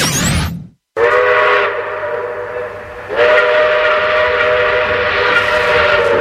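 A steam train whistle sounds as the train departs, a loud, sustained, chord-like blast with a hissing edge. It cuts out briefly near the start, returns, and swells stronger again partway through.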